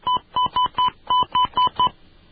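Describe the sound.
Telephone keypad tones dial a phone number. There are eight short, even beeps in a steady rhythm with a brief pause after the fourth, and nothing else is heard.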